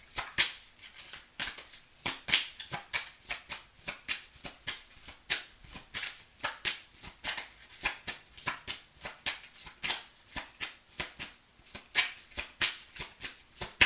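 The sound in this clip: Tarot cards are shuffled by hand in a steady run of many crisp, papery riffles and slaps at a quick, even rhythm, moderately loud, with no talk.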